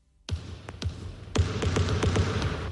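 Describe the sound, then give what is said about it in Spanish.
The basketball segment jingle on Onda Cero radio is built from basketball bounces. Three spaced thumping bounces are followed by quicker, continuous dribbling over a low humming musical bed. “Sintonía de baloncesto.”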